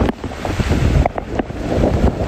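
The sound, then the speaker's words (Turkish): Strong typhoon wind in Zhejiang, recorded by a business's security camera as it overturned a truck. A rough, gusting roar buffets the microphone in uneven surges, with no voices. “Zhejiang eyaletinde etkili olan şiddetli rüzgar bir kamyonu adeta oyuncak gibi devirdi.”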